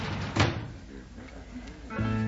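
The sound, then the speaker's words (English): A door closing lands as one solid thud near the start, with softer muffled sounds trailing after it. “Close the door. Good night.”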